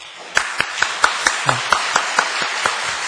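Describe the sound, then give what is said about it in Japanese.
Welcoming applause for a guest pastor at a church gathering: the audience claps in unison, about eleven sharp, evenly spaced beats over a continuous wash of clapping. “まずは歓迎の拍手”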